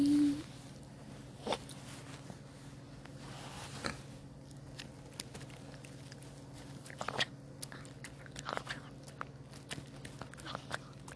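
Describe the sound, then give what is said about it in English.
Crunching from a dog chewing a treat: faint, irregular crisp bites and crackles scattered over a steady low hum, with a brief louder noise at the start. “Hella crunching.”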